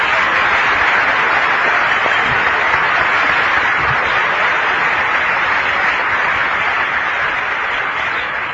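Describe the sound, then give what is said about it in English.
An audience applauds to welcome a guest during a radio interview, a long, even wash of clapping that stays steady from start to finish without any speech. “Would you stand, Patricia, and would you folks welcome Mrs. MacArthur?”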